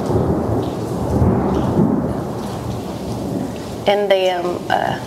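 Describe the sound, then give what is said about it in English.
Thunder rumbles through a thunderstorm over steady falling rain. The low roll is loud and sustained, swelling and easing across the whole stretch. “the thunder agrees. It's accenting my words here.”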